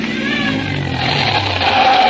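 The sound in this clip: A car driving in a staged drama sound effect, a steady engine hum that swells a little louder toward the end, with no talk.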